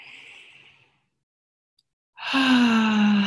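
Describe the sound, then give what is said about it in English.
A deep breath: a soft breathy rush, then a pause of near silence, then a louder, fuller breath carrying a low voiced tone that sinks slightly in pitch. “Okay, one more deep breath here.”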